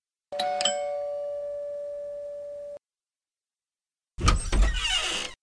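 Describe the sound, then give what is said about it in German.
A doorbell rings at an apartment door off a stairwell: one sustained electronic tone lasting about two and a half seconds, then after a short silence a louder, noisier burst of about a second. “Lass uns gleich ins Treppenhaus gehen und direkt dort klingeln.”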